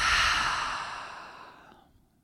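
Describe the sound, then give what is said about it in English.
A slow, audible breath, taken in through the nose and let out through the mouth during a guided eyes-closed relaxation exercise, forms one airy rush that is loudest at the start and fades away over about two seconds. “Let's take a full breath in through the nose, out through the mouth.”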